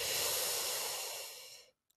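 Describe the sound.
A single long, deep breath drawn in through the airways makes a soft, airy hiss that holds and then tapers away into silence.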